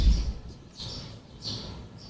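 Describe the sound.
Sparrows chirp in a few short, high, faint calls spaced apart over a soft background.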